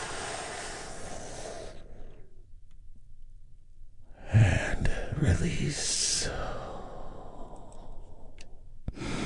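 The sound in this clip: A deep breath drawn in during a guided relaxation session set to violin music: a broad, airy rush lasting about two seconds, then a pause before more breathy, noisy sound returns.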